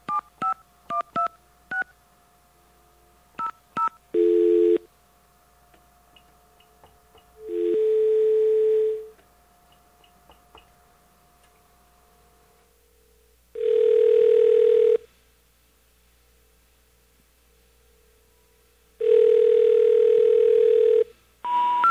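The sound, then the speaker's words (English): A faint, steady telephone dial tone hums under a quick run of touch-tone keypad beeps at the start, then several louder sustained tone bursts follow, spaced seconds apart with quiet gaps between. “Get us a dial tone here, please. There we are.”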